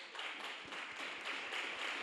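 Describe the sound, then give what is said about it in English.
An audience claps along in worship, keeping quick, steady rhythmic beats beneath a dense, continuous wash of sound. “Clap your hands for Jesus Christ.”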